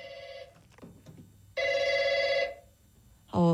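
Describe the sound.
A telephone rings unanswered: two long, loud electronic ring bursts with steady, bright tones, separated by a quiet pause.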